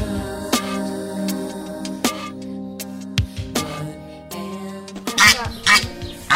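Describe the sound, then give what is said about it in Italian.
A Chinese goose kept as a pet honks in a series of harsh, nasal calls, loud and irregularly spaced, with the later calls coming in quicker, rougher bursts. “Siamo andate a intervistare Wiki e a sentire un po' com'è per questi due umani vivere con un'oca.”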